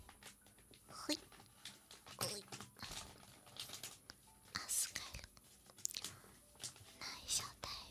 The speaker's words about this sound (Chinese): 把这个是大包装，里面有很多小袋的那个，先把大包装撕开。